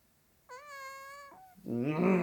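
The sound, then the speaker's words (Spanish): A kitten meows once in the grass, a single drawn-out cry of fairly steady mid pitch. Someone starts talking right after it. “¡Uy! ¡Un gatito en la hierba!”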